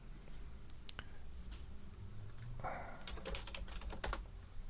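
Rapid typing on a computer keyboard during an online search: many irregular, crisp key clicks in uneven bursts, busier toward the end, with no voices.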